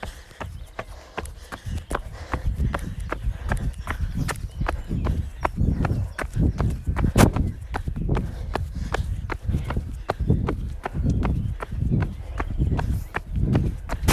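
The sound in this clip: Footsteps of a group jogging at a nice easy pace: many rapid, irregular thuds overlapping in a continuous patter, steady in loudness throughout.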